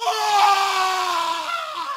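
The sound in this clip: A man's terrified scream: one long, piercing, tonal cry held steadily loud, its pitch sagging gradually downward toward the end.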